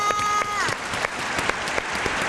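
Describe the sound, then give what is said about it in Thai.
Applause for a child after a round of an English spelling game: dense, steady clapping throughout, with a brief electronic tone at the start that bends downward. “ปรบมือให้น้องวีหน่อยค่ะ”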